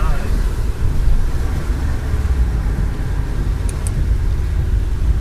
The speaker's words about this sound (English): That's a lot more noise than we open the windows. You can hear how wet the road is.